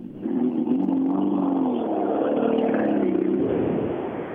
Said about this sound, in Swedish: Det är underbart och det är skönt att få sitta i bilen igen efter den lilla, lilla olyckan.